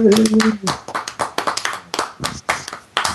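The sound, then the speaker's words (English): Scattered applause from a small audience, a few people clapping in uneven bursts, with a voice talking at the start. “All right, a round of applause for”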